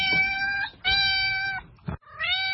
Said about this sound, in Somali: waa bisad